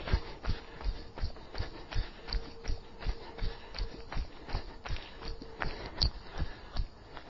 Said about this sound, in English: Get nice and bouncy. Keep the knees facing forwards. Don't let them drop across your midline. And jog.